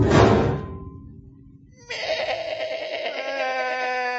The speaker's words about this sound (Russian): Заблеяли козел да баран со страху.